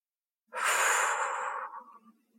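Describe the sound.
A single long breath blown out slowly during a calming relaxation exercise. It is soft and airy, swells quickly, holds steady, then tapers away into quiet.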